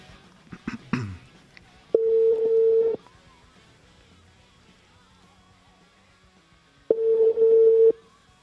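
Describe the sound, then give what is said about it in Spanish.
Telephone ringing tone heard while placing a call: after a few brief clicks, two steady tones of about one second each sound roughly five seconds apart, with quiet line hiss between. “A ver si entra la llamada. Ya está sonando.”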